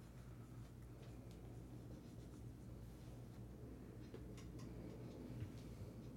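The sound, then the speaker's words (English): Scratchy strokes of a cheap four-dollar marker drawing on a board, faint and continuous, with soft squeaks and drags and no talking. “And even this marker's trash, man. That's what happens when you buy a $4 marker. I got to actually draw colors on here and shit now.”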